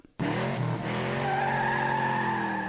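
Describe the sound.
A Formula One racing car accelerating on a dry track: a loud, high-revving engine note cuts in abruptly after a brief near-silence and holds a steady, strongly harmonic whine with only a slight upward drift.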